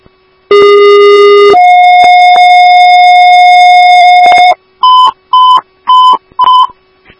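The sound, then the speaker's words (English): Dispatch paging tones for an ambulance sound alone and loud. A steady tone jumps to a higher pitch after about a second and holds for three more, then four short, higher beeps follow in an even rhythm. “hear your tones for ambulance 3 at 7115 Tamarack Road”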